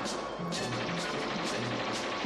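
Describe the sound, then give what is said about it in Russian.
Submachine gun fire in a war film scene, soldiers firing continuously while running toward Red Army fortifications past disabled tanks. It is a dense, loud, unbroken rattle with recurring sharper bursts over a low rumble. “На бегу ведут непрерывный огонь из пистолетов-пулеметов. Целясь, Звягинцев стреляет.”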